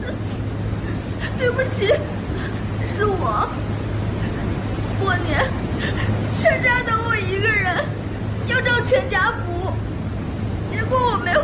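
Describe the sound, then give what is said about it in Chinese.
Someone crying with quivering, sobbing vocal sounds that rise and break irregularly over a steady low mechanical hum. “谁在哭？谁？”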